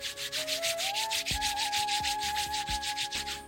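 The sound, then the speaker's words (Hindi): Both hands rubbing briskly together, making many regular swishing strokes in a steady rhythm over a sustained flute melody. “उससे पहले आप सब आंखें खोल लीजिए, अपनी दोनों हाथों को आपस में रगड़ते हुए”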